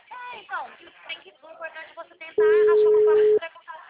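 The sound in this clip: Ringback tone of an outgoing phone call that goes unanswered: a single steady, mid-pitched tone lasting about a second, with people talking before it and briefly after.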